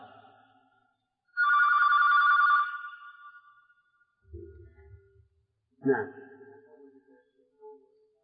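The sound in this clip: A telephone rings once in a bright, buzzing electronic burst lasting about a second, followed by a voice speaking.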